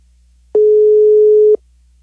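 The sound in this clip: A telephone line ringing during a call-in, heard from the caller's side: one clean, steady ringback tone lasting about a second, starting and stopping abruptly, alone on the line.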